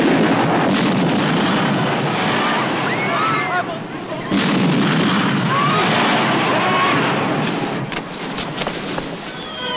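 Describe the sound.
Gunfire in a film scene. It cuts through a loud, dense din, with a sharp crack near the middle and a few more shots toward the end, and voices mixed into the noise.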